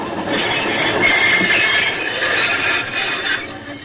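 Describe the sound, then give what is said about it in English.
A locomotive running gives a steady, loud rumble and rattling clatter. A thin, high metallic whine rises over it partway through. “Would that be a locomotive you're driving?”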